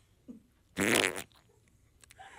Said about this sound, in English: Perhaps you didn't hear that. Oh, we heard it. That was a fart.